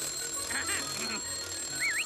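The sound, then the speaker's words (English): Vorb's alarm ringing in an animated story, a faint warbling electronic tone in short wavering bursts, with a brief squiggling trill near the end over a low background hum. “Hovering nearby, Vorb's alarm rings.”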